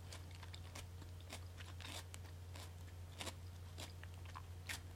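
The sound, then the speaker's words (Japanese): Homemade tsukune is chewed, with many close, crisp bites and crunches at an irregular pace over a faint, steady low hum. “つくね美味しいです皆さんも是非作ってみてください”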